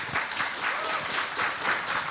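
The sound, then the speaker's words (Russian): A large studio audience of thousands at a televised event on the Kremlin stage bursts into applause, a dense, steady wash of many hands clapping with no break. “вы их не видите, но вы можете их услышать, можно поаплодировать.”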